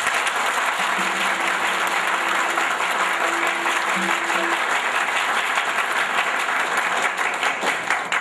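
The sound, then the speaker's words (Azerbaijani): Audience applause honouring a man at a public gathering: loud, dense, sustained clapping from a large crowd that stays at an even level throughout. “Bu bəyin özünə layiq bir əl salınma salın.”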